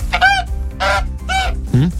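A large white goose gives four loud, harsh honks separated by short gaps, the last one deeper than the rest.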